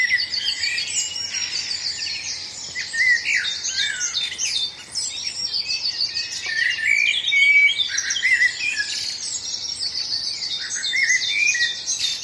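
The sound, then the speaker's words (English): A dawn chorus of many birds in a local park, with dense overlapping chirps, trills and bright whistles sounding continuously and fairly loud throughout. “this is the dawn chorus, which is effectively, it's the sound of bird song at dawn. In a local park here in Crediton.”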